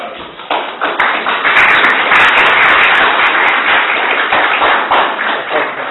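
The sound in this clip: Applause from an audience at a talk, a dense, steady crackle of many hands clapping that holds at full strength for about six seconds with no break.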